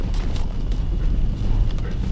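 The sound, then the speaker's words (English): Rumbling stampede of an angry, driven herd of beasts surging across the ground, a dense, continuous low roar with scattered hoof-like thuds and no pauses. “I can feel the herd surging. The beasts are angry, driven. The ground is moving in a way I've never felt.”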